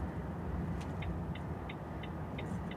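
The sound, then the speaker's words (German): A car's turn signal ticks five times at an even, quick pace as the car moves over on the motorway to let another vehicle merge, each small click crisp above a constant low rumble of engine and road noise. “Und das war übrigens der Blinker, habe gerade überholt, beziehungsweise ich bin rausgefahren, damit einer auf, auf die Autobahn auffahren konnte.”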